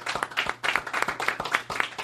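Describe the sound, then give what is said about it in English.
Audience applause for a band: dense, continuous hand clapping with many overlapping slaps, fairly even in loudness from start to end. “How about a nice round of applause for Five Guys with Instruments? Let's do it right here.”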